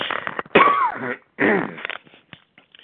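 Someone clears an itch from their throat in two rough, guttural bursts in quick succession, followed by a few faint, smaller throat sounds.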